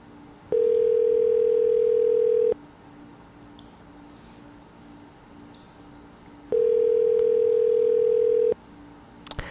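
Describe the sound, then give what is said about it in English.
Telephone ringing tone while a call connects: two long, steady, mid-pitched tone bursts of about two seconds each, separated by a few seconds of faint background hiss. “it's dialing, I think. Because it says calling”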